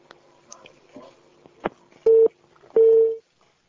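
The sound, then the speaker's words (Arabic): Telephone tones after the line is cut: a few faint clicks and crackles, then two loud, steady beeps, the second longer than the first, followed by quiet. “يبدو أن الخط انقطع.”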